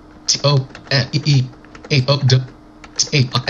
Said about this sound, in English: Okay, I just typed in a sentence